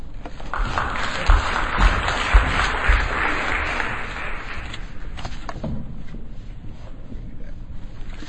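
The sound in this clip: An audience applauds as a speaker is introduced at a talk, with full, continuous clapping that thins out over the last few seconds.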